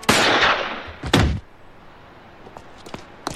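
A policeman's gun fires in a cartoon: two loud, harsh blasts about a second apart, each ringing briefly, then near quiet with a few faint clicks.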